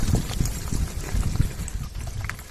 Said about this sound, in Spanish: si nos impresiona escuchar esa lava, ¿no?, ese rodillo de lava avanzando por la carretera